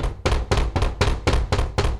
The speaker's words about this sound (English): a thumping at the door